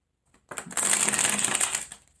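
A deck of cards is shuffled for a card reading: one loud, crisp riffle of fluttering, papery clicks lasting about a second and a half, heard alone.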